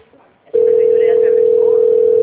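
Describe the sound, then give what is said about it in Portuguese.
Steady telephone dial tone on a call being placed to a Brazilian city hall: a single unbroken mid-pitched hum that starts abruptly after a brief faint murmur and holds at constant loudness to the end. “Tô ligando lá na prefeitura agora.”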